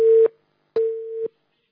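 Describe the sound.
Two bursts of a steady, mid-pitched telephone line tone as an incoming call connects, the second burst roughly twice as long as the first, separated by a short silence.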